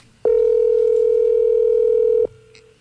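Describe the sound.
A ringback tone on an outgoing phone call: one steady, loud, mid-pitched electronic tone that holds for about two seconds, then cuts off to faint line hiss.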